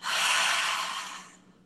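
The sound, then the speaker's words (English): A deep belly breath taken during a guided relaxation exercise: one long, airy rush of breath that swells quickly, holds steady, then slowly fades to quiet. “One last big deep belly breath. Fill up. And get empty.”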